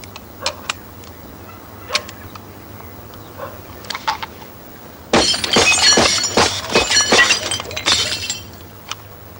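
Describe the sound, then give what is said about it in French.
Glass bottle shattering after being shot at during target practice: a few faint clinks, then a sudden loud burst of breaking glass with many tinkling, scattering fragments for about three seconds. No voices. “Tu tires, tu vises sans respirer. Allez, vas-y. Tu visais sur quoi ? La bouteille.”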